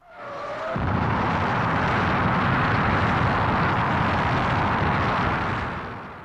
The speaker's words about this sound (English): And we do have some audio of a rocket taking off.